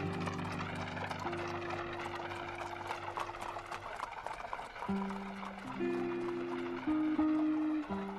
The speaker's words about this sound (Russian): Свадебная процессия едет по темным улицам, освещаемым тусклым светом фонарей. Под копытами лошадей поблескивает мокрая мостовая.